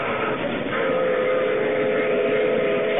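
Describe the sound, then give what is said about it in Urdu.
A train arrives with a continuous, loud rumble and a sustained tonal whine running steadily through it, with no breaks and no voices. “یہ کس چیز کی آواز آ رہی ہے rail گاڑی کی جی ہاں یہ ریل گاڑی آ گئی ہے”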